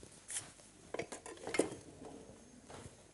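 Knife cutting chicken breast into cubes, with a few light clicks and taps of the blade, moderately loud and irregular, alongside faint clattering of utensils.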